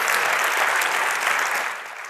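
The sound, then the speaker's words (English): Applause from an audience at a talk greets a speaker who has just been introduced: dense, steady clapping that holds evenly and eases off slightly at the very end. “He just got his PhD like last week at UC Berkeley, so quick round of applause.”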